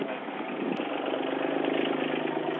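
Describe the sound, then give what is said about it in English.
A John Deere Gator utility vehicle engine runs in a steady, unbroken hum, a continuous mid-pitched idle with a slight rough texture and no voices over it. “Dickie, have you just pulled up? Yeah. Right, what are you driving there? Gator. What's that? John Deere Gator.”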